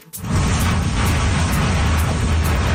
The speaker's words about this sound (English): the sound of Canada's largest icebreaker crashing through the Saguenay River in Quebec a few years back.